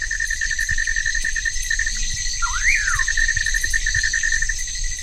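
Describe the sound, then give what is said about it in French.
Many insects calling at night form a dense, steady, high-pitched chorus, and one brief bird call swoops up and back down midway through. “Donc il y a beaucoup d'insectes.”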